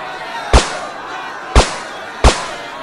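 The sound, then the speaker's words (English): Three sharp tranquilizer gun shots ring out at uneven intervals. Each is a brief, loud crack that fades quickly over a low, steady background hiss. “Those are tranquilizer shots. The next ones will be real bullets, so get back!”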